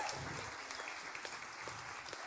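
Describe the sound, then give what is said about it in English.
Faint audience round of applause for a woman being welcomed up: quiet, continuous clapping with scattered sharper claps over the whole stretch. “Let's give her a round of applause. Hannah, we're going to be cheering all the way.”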